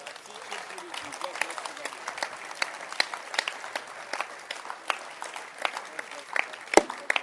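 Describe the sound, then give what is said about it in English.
Scattered handclaps from a church audience answering a preacher's call to clap, with many sharp, irregular claps spread over several seconds and faint voices underneath. “Can you clap your hands?”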